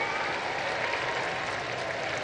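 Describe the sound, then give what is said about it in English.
A crowd applauding after a Sunday prayer gathering: dense, continuous clapping at an even level, a sustained hiss-like wash of many hands with no voices standing out. “Big round of applause goes up”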